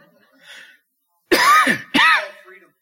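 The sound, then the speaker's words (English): A man coughs twice while preaching, two loud, harsh bursts in quick succession. A faint murmur comes before them. “Something in the air here, because I never cough when I preach.”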